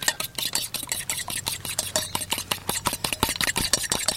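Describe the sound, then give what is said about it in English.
Rapid, steady clicking strokes of eggs being mixed in a bowl, with bits of shell in them. Many even, evenly paced taps and scrapes repeat without pause at a moderate level, and no voices are heard. “Mix up the eggs.”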